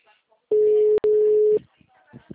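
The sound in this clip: A telephone busy signal sounds as two long, steady mid-pitched tone bursts separated by a short gap, the second slightly longer. Faint voices follow afterwards.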